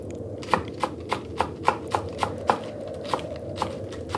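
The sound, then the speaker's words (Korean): Knife chopping of green onion and radish on a cutting board as a grandmother prepares breakfast outside the room on a deep-winter morning; many crisp, evenly spaced taps over a faint steady hum, with no voices. “방 밖에서 할머니가 아침을 준비하는 소리가 들려왔다.”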